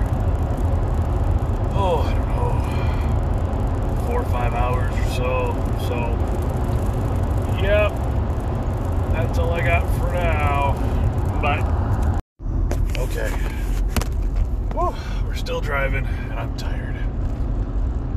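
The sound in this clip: Steady low road rumble inside a moving car, a continuous drone that barely changes throughout, with faint talk partly buried beneath it and one brief dropout near the end.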